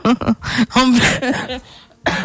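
A man coughs in several harsh, rasping bursts, some with a voiced throaty edge, separated by short pauses and loud against otherwise quiet surroundings.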